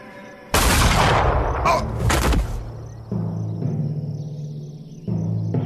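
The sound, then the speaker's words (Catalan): Pistol gunshots fired at a signal in a pistol duel: a sudden loud blast opens, then a few more sharp bursts before the sound settles into a quieter, steady rumble with lower tones. “Disparo.”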